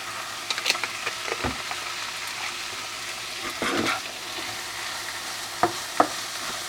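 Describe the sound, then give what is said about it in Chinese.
Oil sizzles steadily in a frying pan as a small spoonful of rice wine goes in while cooking shrimp and pork for a cream pasta, with a few light stirring clicks and scrapes over the constant hiss. “再来呢，我也会下一点点的米酒，或是清酒，或是你家有白酒更好。然后这一样加入一小匙就可以了。”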